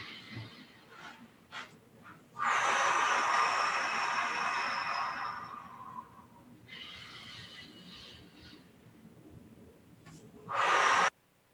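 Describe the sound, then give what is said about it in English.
Slow, deep breathing in and out: a few long, airy, rushing breaths. One long loud breath is followed by a softer one, then a short, sharp, loud one, with no talking. “Exhale. Inhale.”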